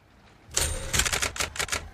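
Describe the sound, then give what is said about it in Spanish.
Keys on an analog typewriter clack in a quick, irregular run of many sharp strikes, starting after a quiet half second. “Sí, esto estaban escribiendo, todavía tenían máquinas de escribir analógicas.”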